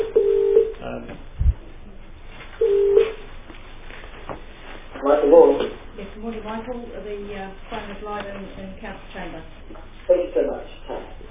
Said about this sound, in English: The phone is live in council chamber.